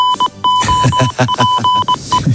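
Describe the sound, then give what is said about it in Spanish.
Goal alert jingle from a Spanish sports radio show: loud, bright electronic beeps ring over a punchy rhythmic musical pattern that runs the whole way through. “Suena el aviso de gol del tiempo de juego.”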